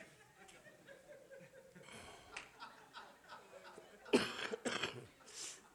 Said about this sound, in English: You just... need to cough here.